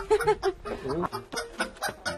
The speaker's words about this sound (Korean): 슈퍼 청계 닭입니다.